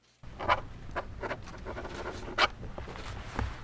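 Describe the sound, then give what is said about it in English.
Two pens scratch across paper while signing a document, a few short, dry strokes spaced out over a low background hum, faint and with no voices. “That's the sound of two pens making history.”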